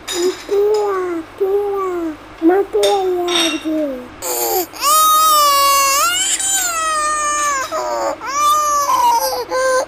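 A baby crying in repeated wavering bursts that rise and fall in pitch, building into longer, louder, high-pitched wails in the second half.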